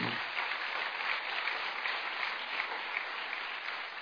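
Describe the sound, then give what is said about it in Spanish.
Audience applause for guitar players at a live music show: many hands clap in a steady, dense wash for about four seconds, with no talk over it. “Vamos a dar un aplauso a ellos de nuevo.”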